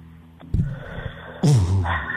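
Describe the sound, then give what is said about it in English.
A big, sharp intake of breath cuts in suddenly, followed at once by a low voiced sound that slides downward in pitch. A faint earlier breath is also heard during a sports talk exchange about a football draft. “Oh, the big breath.”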